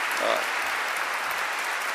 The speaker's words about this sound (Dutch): Als dat je een applaus verdient en een aureool.